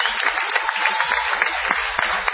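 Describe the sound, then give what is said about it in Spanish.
Audience applause at a live show in Madrid, a thick wash of many hands clapping with scattered sharper claps poking through, steady throughout and without talk. “Y después de este aplauso”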